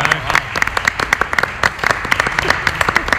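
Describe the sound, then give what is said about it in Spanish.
Audience applause, dense and steady, with many overlapping claps and sharper individual hand strikes standing out. Voices are heard under it. “Un aplauso para Parra, un aplauso.”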